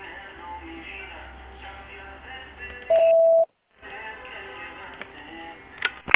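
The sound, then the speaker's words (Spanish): A voicemail beep tone sounds once as a short, steady, clear pitch of about half a second, set between stretches of faint telephone-line background. “Por favor, deje un mensaje en la casilla de voz después de la señal.”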